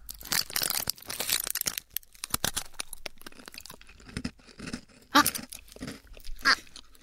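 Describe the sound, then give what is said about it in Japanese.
Crunching bites and chewing of a spicy butter cookie, with many crisp, irregular crunches and cracking chews, and a few louder, sharper bites near the end. No one speaks. “クッキーですよ、匂いは。 あ、匂いはバタークッキー、 うん、ね、美味しそう。うん、 せーのね、 いただきます。”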